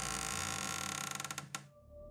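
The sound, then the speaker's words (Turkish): A door creaking open: a loud, sustained grinding creak that breaks into a fast run of ratcheting clicks, closes with one sharper knock, and then drops away to a faint steady hum. “Kapıya doğru yürüyorsunuz. Kapı açılıyor.”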